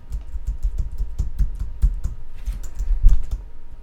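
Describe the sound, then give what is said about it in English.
Rapid clicking from a laptop keyboard as someone types, with many irregular keystrokes in a steady stream. The typing is fairly loud and there is no talk. “Why don't you use your laptop? Let me use my laptop. See if you can beat me.”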